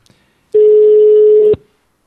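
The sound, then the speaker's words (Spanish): Outgoing ringing tone of a Skype call: a single loud, steady tone at one constant pitch. It lasts about a second, then stops abruptly. No talk is heard. “ya estamos llamando por teléfono, ahí le escuchamos el cucucucurucu característico de Skype, y suena”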